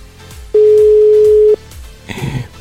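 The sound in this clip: A single steady telephone tone, about one second long and loud, sounds on a phone call that is failing to connect. A burst of rough, noisy sound follows shortly after.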